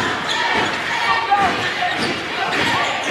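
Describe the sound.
A basketball dribbled on a court during the fourth quarter of a close game, with bounces blurred into steady crowd noise and someone talking over it.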